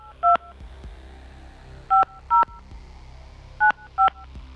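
Five DTMF keypad tones sound as a telephone number is dialed: one short beep, a pause, two close together, another pause, then two more, all over a low steady hum.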